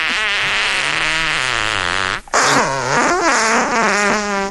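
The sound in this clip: A voice imitates a fart: a loud, sustained, buzzing raspberry with wavering pitch, in two long stretches split by a brief break.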